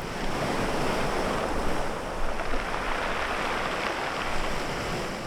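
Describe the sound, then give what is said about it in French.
Sea waves roll pebbles on a shore on a summer midday, a continuous rushing wash with gentle swells and a few slightly louder surges, mixed with wind noise. “Le soleil de midi rougit les pâles. Les galets roulent sous la mer.”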